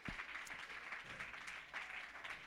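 An audience clapping hands during a church service, with a continuous, dense patter of many hands that stays faint and even throughout.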